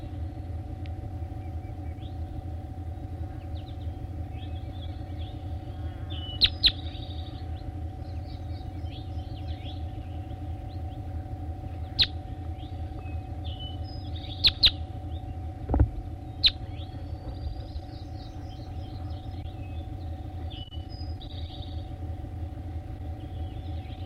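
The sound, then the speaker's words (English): Bird song: a few faint, scattered chirps and short whistled calls over a steady, loud low rumble that resembles engine or traffic noise. There are no voices. “That was bird 3-4, stop. Recording bird 3-4.”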